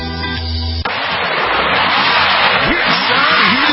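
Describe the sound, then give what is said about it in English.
A tow truck's engine revs loudly and steadily, its tone sweeping up and down in pitch as it works. A short, different tonal sound comes just before the engine. “Hear that? That is the sound. No, that is the sound of the wrecker. That is the sound of the tow truck.”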